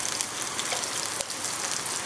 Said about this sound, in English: I'm just gonna add a little bit of water in here and just clean the blender part of it out